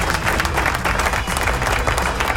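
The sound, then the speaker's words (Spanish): Loud, dense applause from a crowd, steady clapping that fills the whole stretch without a break. “¡Aplauso!”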